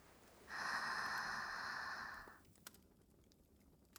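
One long, soft inhalation during a guided relaxation breathing exercise. The breath rises smoothly, holds steady for about two seconds and then fades, quiet and alone with no talk.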